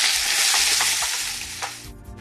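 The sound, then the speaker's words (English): Purple amaranth stir-frying gives off a loud, steady sizzling hiss, broken by a few soft stirring knocks. The sizzle eases slightly toward the end, and no one speaks. “And in goes the purple amaranth. Han Cai, one of my favourite Chinese vegetables. I'll just stir fry that for a few moments.”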